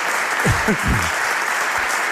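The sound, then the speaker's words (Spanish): Audience applause welcoming a city mayor as a guest at a public event, a steady, dense patter of many hands clapping, with a brief voice heard near the start. “Podéis aplaudir también, ¿eh? Aquí hay para todos.”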